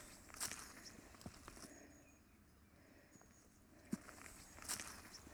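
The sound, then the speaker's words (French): Footsteps crunch over stones on a rocky climbing path, a few faint, irregular steps against a quiet background. “les chemins pour grimper sont pleins de pierres. Quand ils marchent dessus, ça donne cette musique spéciale.”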